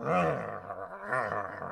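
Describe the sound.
A person imitating a dog growling, mimicking a cartoon dog on its hind legs baring its teeth. Two rough, low, voiced growls come in quick succession, separated by a short dip.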